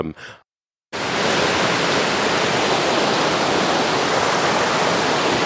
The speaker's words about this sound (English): so from the noise, you can probably tell we're now on the river.